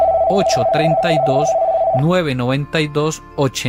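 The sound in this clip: An incoming call sets off a telephone ring tone, steady and mid-high pitched, lasting about two seconds under a talking voice. The voice then continues on its own.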